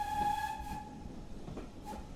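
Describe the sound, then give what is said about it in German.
Heritage steam locomotive on a museum railway stopped at a historic station: a steady, clear whistle-like tone holds at the start and returns briefly near the end over low, continuous rail rumble. “Hier machen nur die Dampflokomotiven der Swanage Railway Halt.”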